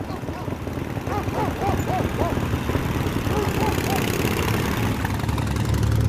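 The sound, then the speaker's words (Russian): A motorcycle engine drones steadily as two German soldiers ride down a village street on a foggy early morning, the low rumble holding even throughout beneath continuous talk. “По улице на мотоцикле проезжают два немца.”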